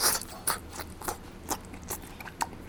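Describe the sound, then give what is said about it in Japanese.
Someone chews raw horse liver with onion and ginger soy sauce. The chewing is faint, soft and wet, with many small bites and occasional crisp crunches in a steady rhythm, and no one talks. “生姜醤油でいただいてみましょうか。よいしょ。これはちょっと玉ねぎと一緒にいただくといいかもしれませんね。”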